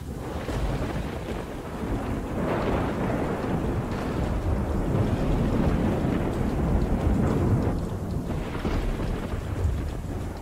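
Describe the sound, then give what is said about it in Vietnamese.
Thunder from a lightning strike rolls as a loud, sustained rumble through the whole clip, with a rain-like hiss over it and a brief dip near the end. “Từ trong đám mây đen, một tia sét đỏ rực phóng xuống giữa bầy quỷ, nổ đánh đùng một cái.”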